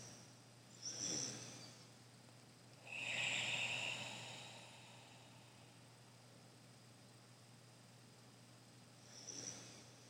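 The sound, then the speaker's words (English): Ujjayi breathing during a meditation practice: three faint, throaty, hissing breaths with long quiet gaps between them. The middle breath is the longest and most rasping, like soft snoring. “3 Ujjayi breaths.”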